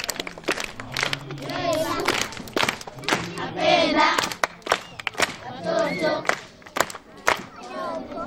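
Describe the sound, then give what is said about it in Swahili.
Church audience clapping hands in praise, with scattered irregular claps under loud shouting and talking voices that swell and drop throughout. “Mungu yuko juu mbinguni. Amen. Pige makofi.”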